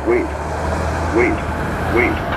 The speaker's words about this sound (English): Oh, girl driving a truck.